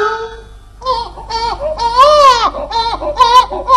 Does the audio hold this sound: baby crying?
yes

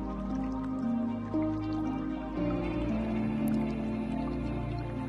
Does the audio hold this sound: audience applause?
no

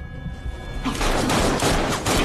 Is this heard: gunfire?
yes

